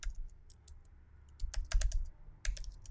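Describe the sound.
Typing on a computer keyboard: quick, irregular clicks of keys in short clusters, fairly faint, with no voices.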